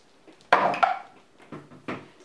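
A twenty-sided die rolled during a tabletop game makes a few hard, bright clacks and clatters. A faint tap comes first, then two sharp hits close together and two softer bounces after a short pause.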